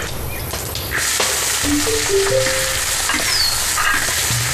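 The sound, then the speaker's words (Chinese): Stink bugs fry in hot oil in a wok with a dense, continuous sizzle that runs throughout. Occasional sharp clicks from stirring cut through the steady hiss. “江州盛产龙眼，花开时臭屁虫吵闹未冲，人们便将这种毫不讨喜的昆虫直接下锅，以图一时清静。”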